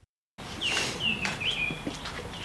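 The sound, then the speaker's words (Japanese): A small bird sings in temple grounds among stone Buddha statues, several clear, high whistled notes and sliding phrases repeated over a quiet background, with no talk. “うわ、いい鳴き声だな。いい声でさえずってる小鳥がいますね。”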